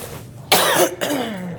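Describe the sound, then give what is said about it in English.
A nervous cough: a sudden, loud, rasping burst followed by a second, rougher throaty sound. No talk accompanies it. “Nervous cough.”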